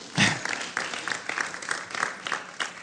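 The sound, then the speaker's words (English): A church audience applauds first-time visitors with a burst of clapping that starts strong, then settles into steady, even applause for the rest of the moment. “Well, let's give everyone a hand for being here then.”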